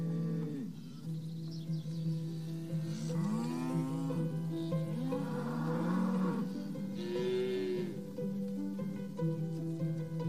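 A fighting bull lows in several long, deep, drawn-out calls that are fairly faint, with no voices.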